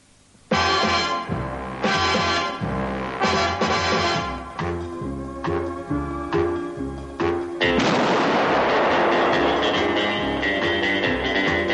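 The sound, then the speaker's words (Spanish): Pistol shot from the opening gun-barrel sequence of a 1964 spy film, fired toward the barrel over loud, brassy orchestral music with heavy rhythmic hits and a sudden crashing swell near the end. “Un hombre elegantemente vestido camina enmarcado por el cañón de una pistola. Se detiene y dispara hacia el interior del cañón.”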